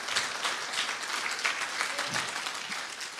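An audience applauds a pastor couple, giving steady, dense clapping at a fairly low level throughout.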